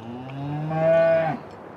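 A cow on a dairy farm gives a single long moo, a deep drawn-out bellow that swells in the middle and then ends abruptly over faint background noise.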